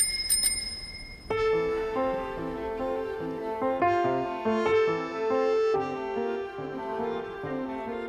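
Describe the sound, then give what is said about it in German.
An old bicycle bell gives two quick, bright metallic rings at the start. Sustained, gently shifting musical tones follow and continue to the end. “Es war eine alte Fahrradklingel, die sie zweimal betätigte. Ring, ring, ring.”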